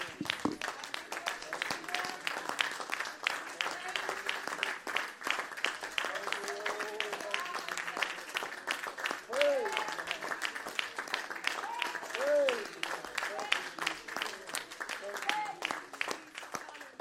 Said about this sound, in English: Stand together, give Jesus a hand clap of praise this morning.